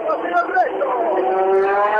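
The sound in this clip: A race car heads out onto the track as the first to go in group C qualifying, its engine a steady, droning buzz with layered tones held throughout under continuous talk.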